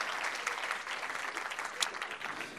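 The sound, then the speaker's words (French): A church audience applauding during a French-language worship service, a steady, dense patter of many hands clapping that holds at a fairly faint level throughout, with no clear voices standing out. “Est-ce qu'on peut encore acclamer Jésus pour sa présence”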